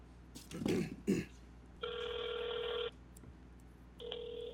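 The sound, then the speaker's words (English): A telephone rings while a prank call is being placed, after a few short voice sounds. Two long electronic ring tones come with a gap between them, and the second is cut off at the end. “Prank call time! Let's call Jenna Marbles.”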